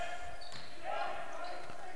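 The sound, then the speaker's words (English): Basketball bouncing on the court during a college game: a few dull, low thumps on the hardwood under a steady arena din, with a voice talking over it. “This shot no good. Fight for the rebound, and it is cleared by Doan. Doan with the basketball”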